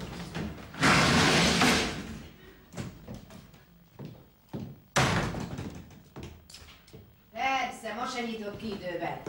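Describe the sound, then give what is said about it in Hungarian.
Knocking and rattling at a door: a few sharp knocks and a broad, noisy rattle, with people talking. “Hiába zörgettem, kopogtattam, senki nem nyitott ajtót.”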